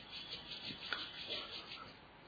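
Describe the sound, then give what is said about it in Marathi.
Palms rubbed gently against each other, making a faint, soft and continuous swishing hiss that swells and eases slightly as the hands slide back and forth. “आपले तळहात किंचित एकमेकांवर घासून”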